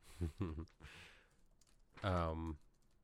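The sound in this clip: Keyboard typing clicks come in a few short bursts, mixed with a voice imitating the tapping and clicking.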